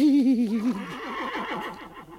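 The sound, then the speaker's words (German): A mustang lead stallion neighs: one long, loud whinny with quavering, wavering pitch that sinks and breaks into a rapid trembling rattle as it trails off. No voices are heard. “Habe ich nicht gesagt, dass sie kommen? Da drüben steht der Leithengst, der Speer.”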